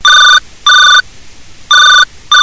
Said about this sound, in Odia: ଆରି ଆମର ଲୋକ ଏନ୍ତାରି ଫୋନ କରିଥିବା ରେଲି ନିଆରି ଗୋଟେ ଫୋନ ଆଇଲାନି ଜୁହାର ଲାଗ।